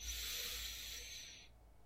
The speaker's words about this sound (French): Et aujourd'hui, nous allons inspirer sur 3 temps et expirer sur 5 temps. On inspire 3 temps.